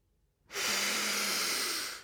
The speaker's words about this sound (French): je vous invite à prendre trois grandes respirations par le nez